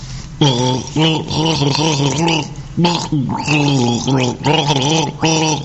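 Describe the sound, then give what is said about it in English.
A person gargles as a clue in a guessing game, producing several loud voiced bursts with wobbling, shifting pitch and short gaps between them. “This is gargle number 1.”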